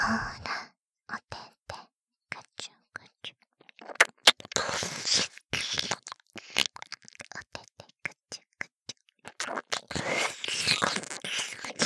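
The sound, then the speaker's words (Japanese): Wet licking and mouth sounds on an ear: many soft, irregular clicks, smacks and slurps, quiet and close, in dense clusters with short silent gaps between them. “君の耳ペロペロして、すっごくおいしいでちょ。”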